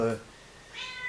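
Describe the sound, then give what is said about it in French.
A cat meows in a pair of brief, short calls separated by a moment of quiet. “Je vais faire sortir ce chat.”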